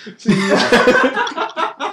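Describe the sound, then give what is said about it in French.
Person choking and coughing on air, a short series of sputtering, voiced, laugh-like bursts that break up and trail off over about two seconds. “Je m'étouffe avec rien du tout, avec de l'air. Je m'étouffe avec de l'air.”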